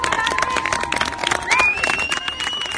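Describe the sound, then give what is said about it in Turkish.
A crowd of about two thousand people, mostly women, gathers against Cengiz Holding's planned copper mine at Cerattepe. There are bursts of clapping and many voices shouting and chattering at once. “Bu seslerde Cengiz Holding'in Cerattepe'de kurmayı planladığı bakır madenine karşı toplanan çoğunluğu kadın 2000 kişinin yürüyüşe geçmesinin hemen öncesinde, polis tarafından önlerini kesilmesinin hemen öncesindeki seslerdi.”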